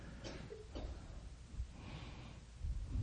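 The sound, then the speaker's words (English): A deep breath is drawn in during a prayer healing session. It is faint and airy, with a couple of short snorting, gasping bursts near the start. “Take a deep breath.”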